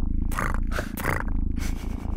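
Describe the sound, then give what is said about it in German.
Cat purring: a loud, continuous low rumble with pulsing breathy surges, steady throughout with no voices. “Wenn du mit den Höhen zum Beispiel arbeitest, ja, dann kannst du tatsächlich so ein bisschen die Charakteristik des Schnurrens verändern. Guck, da macht er gerade da.”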